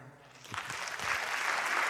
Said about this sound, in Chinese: 感谢大家哦，感谢大家掌声